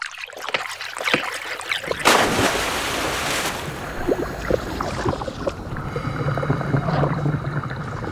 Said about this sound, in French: Toi et ta manie de m'emmener sous l'eau, il va me pousser des branchies à la fin.